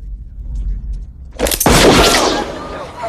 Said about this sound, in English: Ace goes for his gun, but Herod's quicker again, and this time blows a hole right through the middle of his left hand